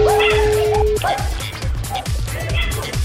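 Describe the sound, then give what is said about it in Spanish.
Several dogs bark in rapid, repeated yaps and yips, with whimpering mixed in. The barking continues throughout, loud and persistent. “Hay mendigos perros esos. No se callan”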